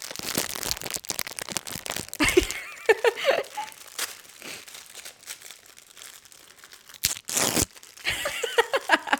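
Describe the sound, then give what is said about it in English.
Crisp crinkling and crunching of a fortune cookie being cracked open right into the microphone: a few bursts of brittle snapping and rustling, two of them sharper and louder, with a faint voice in the gaps. “That was me cracking the cookie into the microphone.”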